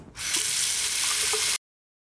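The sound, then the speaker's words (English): Water runs at a sink for handwashing, a steady rushing hiss lasting about a second and a half before it cuts off abruptly. No one speaks. “I'm going to go wash my hands again.”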